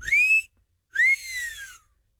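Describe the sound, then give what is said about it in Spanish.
Two flirtatious whistled notes aimed at women: the first rises sharply and holds, and after a short gap the second rises quickly, then glides down in a long falling tail. The notes are clear and loud, with no talk over them. “antes que nada, el chiflidito para sus nenas.”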